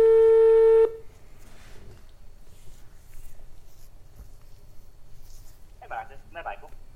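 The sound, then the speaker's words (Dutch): A telephone is dialed from a studio to reach a friend for a quiz question: one loud, steady tone lasts under a second, then gives way to quiet low noise with a brief voice near the end. “Ik ga nu proberen te bellen en hij kan jou wellicht helpen met het beantwoorden van deze vraag.”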